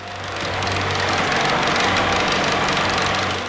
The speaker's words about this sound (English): That's the sound of a big boat passing.